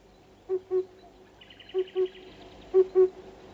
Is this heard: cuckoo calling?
yes